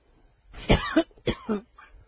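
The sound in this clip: Coughing and throat clearing: two harsh, rough bursts close together, each with a voiced, croaky tail, followed by a much fainter third sound. No other voices or noises are present.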